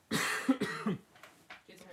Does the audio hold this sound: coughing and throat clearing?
yes